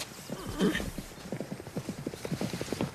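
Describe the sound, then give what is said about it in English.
Galloping horses on a racetrack: thoroughbreds thunder by in many quick, rhythmic hoofbeats, with a brief whinny early on. “Horses gallop on the racetrack as Channing lays the saddle on top of a white trackside fence.”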